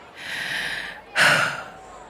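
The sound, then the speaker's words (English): A deep breath taken alone: a long, soft rush of air, a brief pause, then a louder, sharper breath that fades away. “takes a deep breath, and then”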